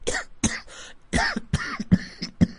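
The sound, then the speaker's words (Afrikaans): A run of short, raspy coughs, many quick bursts in an uneven rhythm with little gap between them, moderately loud and with no talking. “Pas op vir daai hoesie.”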